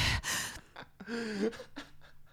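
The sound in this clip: A voice imitates a baby's gasp while holding its breath: a few sharp, breathy intakes and short voiced catches, moderately loud and alone, with brief pauses between them.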